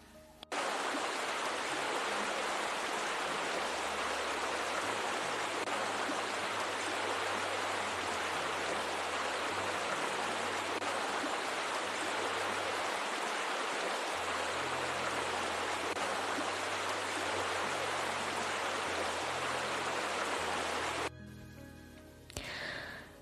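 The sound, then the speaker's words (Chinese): Hot shower water runs in a continuous, dense hissing spray with a faint low hum beneath it. The rush holds steady for about twenty seconds, then cuts off and leaves quieter, scattered sounds. “洗个热水澡还是很舒服的。”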